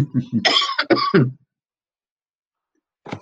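A person with a dry throat clears it in a quick series of harsh, raspy bursts. Silence follows, then one more short rough sound at the very end.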